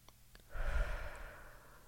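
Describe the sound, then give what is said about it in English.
A deep, breathy inhale drawn in during a breathing exercise. It starts abruptly after a brief quiet moment, swells with an airy rush, then slowly tapers off. No voices are heard. “Breathe in. Breathe in.”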